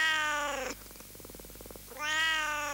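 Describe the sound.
A kitten meowing: two long, drawn-out, high meows, clear and alone, separated by a softer, rapidly pulsing sound.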